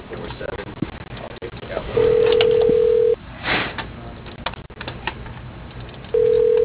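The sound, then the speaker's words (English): A telephone call being transferred rings as a ringback tone: two long, steady mid-pitched tones separated by a pause, over faint, narrow-band phone-line hiss. “If you know the extension of the person you're trying to reach, please dial it now. For Rick Deserba, press extension 6. For Cheryl Waters, your call is being transferred.”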